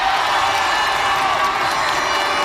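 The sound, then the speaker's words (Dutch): A crowd of spectators at a World Cup football match cheers and applauds, a dense continuous roar of clapping, shouts and whoops at steady loud level throughout. “Een applaus voor ze.”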